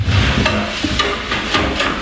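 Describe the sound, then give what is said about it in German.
Spoon, pot and pan clatter in a kitchen: a few sharp metallic knocks and clinks in an uneven rhythm over a steady background hiss. “Löffel, Topf, Pfanne”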